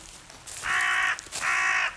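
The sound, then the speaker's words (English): A crow in a forest gives two long, harsh, nasal caws separated by a brief pause. Each call is drawn out and loud, with no talking. “Here, Mr. Crow. I see you. You don't scare me. Even if you have been following me for bloody miles.”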